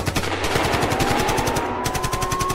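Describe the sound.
Machine-gun fire used as a sound effect in a German rap track: rapid, evenly spaced shots run loud and without a break for the whole clip.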